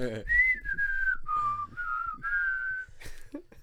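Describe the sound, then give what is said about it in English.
A person whistles a short tune alone: a run of clear, sustained notes that step between pitches, ending in a brief higher burst. “I can whistle for sure.”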